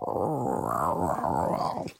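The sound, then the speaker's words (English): A human voice imitates a tiger growl: one continuous, loud, rough low growl lasting about two seconds that trails off at the end, with no other sounds. “had to do one more tiger growl for the one time”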